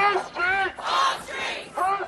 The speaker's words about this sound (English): Carrying signs saying refugees welcome and chanting, whose streets are streets?